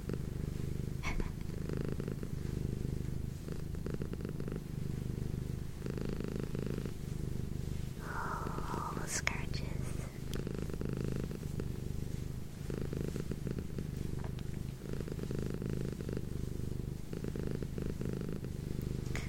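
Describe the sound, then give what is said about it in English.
A cat purrs while lying on a lap: a steady, continuous low rumble that holds evenly for the whole stretch, with no talking over it. “My cat is in my lap, so you get some purrs today and scratches.”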